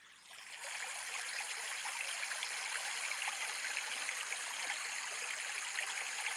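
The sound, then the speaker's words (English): Steady rushing water from a slow-stream track in the RainRain sleep app, fading in during the first second, then holding a constant, even, hiss-like flow with a gentle trickling texture and no pauses. “The one I usually use, let me see, my favorites here, is the slow stream, and it sounds like this.”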